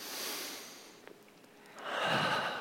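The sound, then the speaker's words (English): A deep breath in: a soft, breathy rush of air that eases off, then swells louder again toward the end, with no talk. “Big breath in.”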